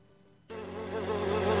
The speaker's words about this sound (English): Sometimes see them flying or running across the floor. Ew, yuck. Bugs. I loathe bugs.